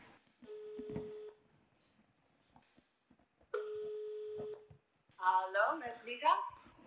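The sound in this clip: Ringback tone of an outgoing telephone call: two long, steady, evenly pitched rings separated by a pause, and then a voice begins speaking on the line.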